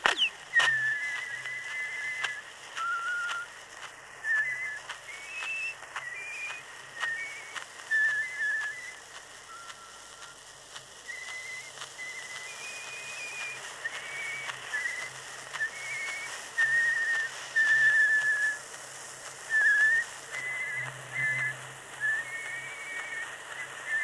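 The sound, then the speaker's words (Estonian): A man from Virbla parish in Estonia whistles a folk song in two voices at once: a high, bright, wavering melody runs over a low droning second line. Many short phrases continue for about 24 seconds, with no talk. “Õieti vilistab korraga kahe hääle peal laulu.”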